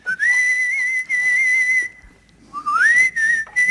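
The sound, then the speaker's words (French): A person whistles a tune in clear, high, sustained notes, two phrases split by a short pause, the second sliding upward as it begins, with no talk. “Tu siffles bien.”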